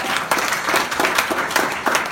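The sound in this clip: An audience at a speaking event applauds, producing a dense, even wash of clapping hands with a few louder surges.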